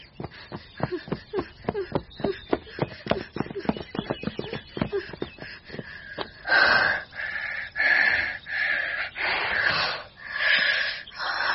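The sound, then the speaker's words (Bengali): A woman pants for breath after running, standing on a newly built street in South Kolkata, with many quick, rhythmic wheezing breaths that give way to slower, longer and heavier gasps. “নতুন তৈরি হওয়া south কলকাতার রাস্তায় দাঁড়িয়ে হাঁপাতে লাগলো সুরঞ্জিনী।”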